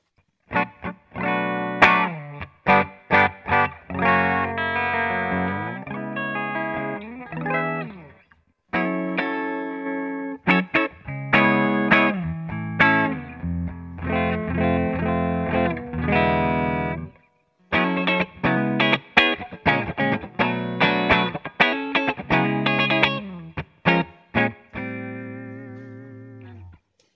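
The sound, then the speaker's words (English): Clean bass guitar tone: many plucked notes played in quick phrases, some ringing briefly and others sustained, broken by a few short pauses, with no voices. “I'll establish a bass tone, kind of give us our clean sounds.”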